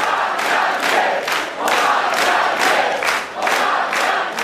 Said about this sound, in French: Voilà les supporters de Jean-Luc Mélenchon qui scandent « On a gagné ».